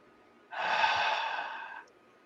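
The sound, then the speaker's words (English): A person takes one long, deep breath in during a guided gratitude exercise. It is a soft, airy hiss that swells quickly, holds steady for over a second and then stops, with no talking over it. “And so then we say, take a big breath in.”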